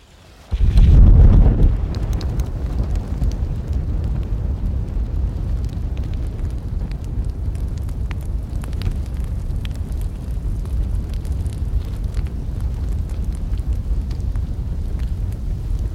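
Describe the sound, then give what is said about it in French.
A fire burns. A louder whoosh at the start settles into a steady, continuous low roar flecked with faint scattered crackles and pops, lasting throughout without voices. “Est-ce que vous sentez la chaleur du feu ? Ah oui, ça fait du bien. Vous la sentez, vous l'entendez, vous l'imaginez ?”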